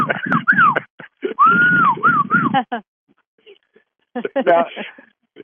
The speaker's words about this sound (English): How do you whistle? Literally.